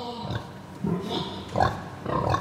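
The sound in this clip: Pigs kept as farm livestock grunting: a steady series of low, rough grunts and snorts overlapping one another at moderate loudness, with no talk.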